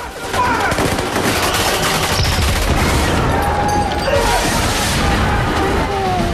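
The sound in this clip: Heavy gunfire from a very large gun roars as a dense, unbroken barrage, loud and sustained throughout with no clear gaps between shots.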